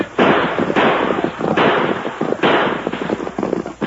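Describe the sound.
Gunshots in a western radio drama: a series of loud, sharp shots, each followed by a long, rumbling tail before the next crack.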